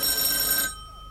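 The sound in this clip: A telephone bell rings with a bright, buzzing metallic trill that cuts off abruptly just past halfway, leaving only faint low hum afterward.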